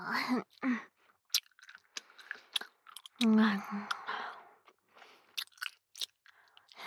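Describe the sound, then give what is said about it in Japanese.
Gum being chewed with the mouth close to the microphone, giving many irregular wet smacks and crisp clicks, with a brief voiced sound partway through. “ガムを噛む音が気になるのかな？”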